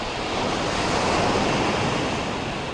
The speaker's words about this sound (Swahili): Hebu basi fanya upesi. Si unaona mawimbi yanavyozidi kuongezeka? Unayaona?